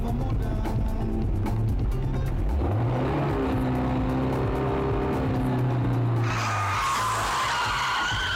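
A car drives close behind a pedestrian on a street and nearly hits her; the engine note climbs and drones loudly, then breaks into a harsh tyre skid.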